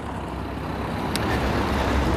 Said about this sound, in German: Oh, hier ist ganz schön was los, ne? Viel Verkehr hier.